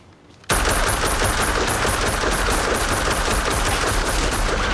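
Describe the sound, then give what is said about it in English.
Assault rifle gunfire: a dense, loud burst of rapid automatic fire breaks in abruptly after a brief quiet and continues without letup to the end. “He aims the assault rifle.”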